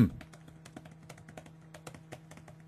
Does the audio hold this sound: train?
no